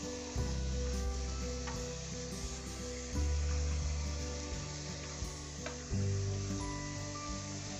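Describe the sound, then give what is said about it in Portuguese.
Washing a frying pan: a continuous rushing hiss of water over a low, steady hum, with a few brief surges in loudness. “lavando a frigideira”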